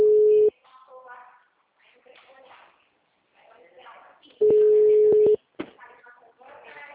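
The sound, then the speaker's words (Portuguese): Ringing tone of an outgoing telephone call, heard as two long, steady, mid-pitched tones, the second briefly broken, with people talking between them. “Vou ligar.”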